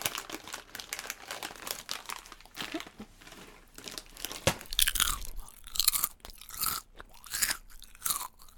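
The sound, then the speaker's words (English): Crunchy chewing of Thai chips, with many crisp crunches and crinkly bites in an irregular rhythm. The sound is fairly faint and heard alone, with no talk. “sorry for all the chewing noises and whatnot”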